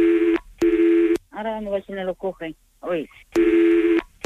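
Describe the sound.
Steady telephone line tones during a call transfer: two short tone bursts, a stretch of someone talking, then one more tone burst. Each burst is clear and loud.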